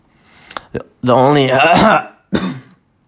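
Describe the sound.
Someone coughs with something stuck in their throat: two short, sharp coughs, then a long, strained, voiced hacking sound, and one more brief cough.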